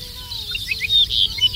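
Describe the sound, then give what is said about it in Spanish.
A ricotí bird sings its titutí call, a string of several short, high, bright chirps over a low, steady background hum. “ricotí, se llama como tal porque es una emulación de la onomatopeya que produce en el canto, el titutí. Sé que realiza en varios momentos.”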